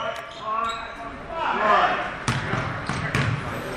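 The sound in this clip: A basketball dribbled on the court during a college game, giving a few sharp thumping bounces in quick succession under voices talking over the play.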